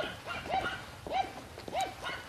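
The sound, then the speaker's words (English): Small yappy dogs bark in a few faint, high, sharp yips spaced evenly apart over a low, steady background hiss. “Some of you may have noticed that I've been editing the files to cut this dog sound down a little bit.”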